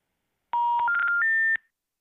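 Three stepped electronic telephone tones rise in pitch one after another, each lasting about a third of a second, clean and steady with no talk.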